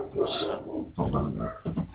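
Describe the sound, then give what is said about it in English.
Dogs barking excitedly at home with the doors and windows open: a run of loud, bursty barks and yelps in muffled, narrow-band sound, nearly continuous with brief gaps. “Whoa, now I hear dogs. Yeah, my dog's going crazy.”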